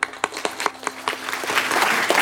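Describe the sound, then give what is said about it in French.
Students applaud together to thank an astronaut at the end of a question session. Scattered single claps come first, then they build into dense, steady, fairly loud applause. “Merci beaucoup Luca pour ce merveilleux moment et puis on va t'applaudir tous ensemble.”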